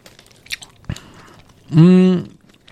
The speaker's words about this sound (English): Down the hatch for Earthy Select Sativa Organic Peach.